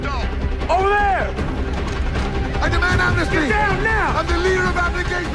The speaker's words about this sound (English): Guards fire at the runaways.